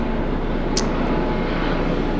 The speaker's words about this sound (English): lots of helicopter action here